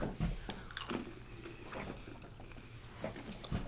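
Someone chews a chewy M&M candy with soft, wet, squishy mouth sounds and a few sharper bites, faint and close, with no talk.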